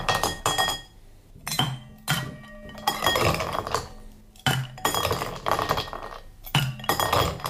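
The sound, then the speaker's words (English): Ice cubes dropped into a cocktail glass while mixing a drink with bitters, heard as several uneven bursts of bright clinking and rattling glass separated by brief pauses. “Okay, then I'm gonna pop in plenty of ice.”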